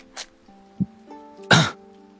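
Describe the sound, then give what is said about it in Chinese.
A single sharp, fairly loud cough from a young man, standing out against steady, faint background tones after a couple of softer earlier sounds. “沈觉终于红了脸，别过眼，咳了一声道：”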